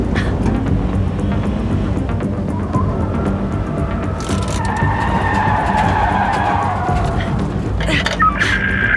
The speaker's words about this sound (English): I am being pursued by an unmarked vehicle. Black sedan.